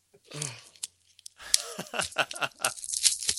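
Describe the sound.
Packaging on a late-1970s treehouse toy set is ripped open in several crisp tearing and crinkling bursts, with a voice briefly heard among them.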